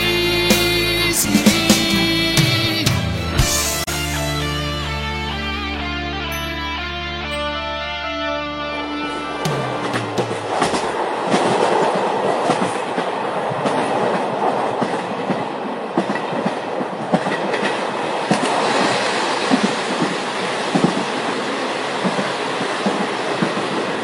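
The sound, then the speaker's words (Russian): A runaway diesel locomotive approaching: a loud, continuous rolling roar with rhythmic wheel clatter and faint squeal, after an opening stretch of sustained tonal ringing. “На вас движется неуправляемый тепловоз. Повторяю, на вас движется неуправляемый тепловоз.”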